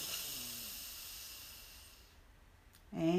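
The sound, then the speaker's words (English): A long, soft exhale during slow deep breathing, a faint breathy hiss that fades over about two seconds before a sharper breathy burst at the very end. “Deep breath in and out. Deep breath in”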